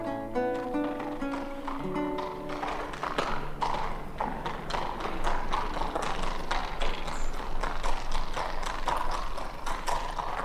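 A hunter's horse clip-clopping, its hooves striking in a steady, even stream of many crisp clops that carries through the whole passage at a moderate loudness.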